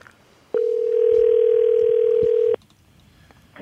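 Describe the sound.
A single telephone ringing tone on an outgoing call: one steady, loud, pure beep lasting about two seconds, with quiet line noise before and after.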